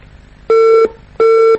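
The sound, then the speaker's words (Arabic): A phone line's disconnection tone after a call drops: two loud, steady mid-pitched beeps of equal length, separated by a short gap, with nothing else heard. “انقطع اتصال أخي عبد الرحمن.”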